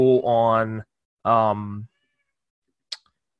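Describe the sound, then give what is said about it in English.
A pet cat yowls two loud, drawn-out meows, the first rising in pitch. It sounds angry at someone entering the room. A brief faint click follows after a pause. “My cat is really yelling at me. Like, this thing's super pissed that I'm in the room right now.”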